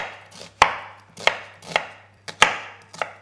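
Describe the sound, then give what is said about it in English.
A knife chops down through a vegetable from top to bottom on a cutting board, with the root left attached. Five sharp, loud strikes land in an uneven rhythm, each preceded by a softer slicing swish. “I, have also kept the, the base, the root attached, yep. so that it doesn't all fall apart when I'm cutting it. So I'm going to cut down from top to bottom.”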